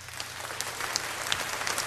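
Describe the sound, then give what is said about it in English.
Faint applause at a product presentation, a soft, steady patter of clapping with a few sharper claps standing out and no voices over it. “Applause”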